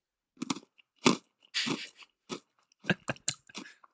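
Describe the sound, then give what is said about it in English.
Biting into and chewing a chocolate frog: several crisp, short crunches and chewing bursts separated by silence, quiet and heard alone. “A little chocolate frog. Beautiful. I'm going to try. I don't think this will be very good.”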